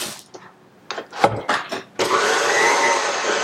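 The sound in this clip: Electric mixer whirring steadily through cake batter with cream cheese, starting after a few knocks and clunks and then running as a loud continuous drone.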